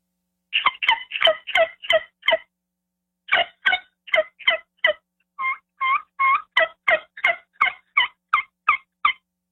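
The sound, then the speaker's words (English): Turkey yelps made with a yelper turkey call: a long run of many sharp, raspy notes delivered in a few series separated by brief pauses, clear and alone. “I don't have a cut call with me. I was just a yelper. But if you're going to do your yelps.”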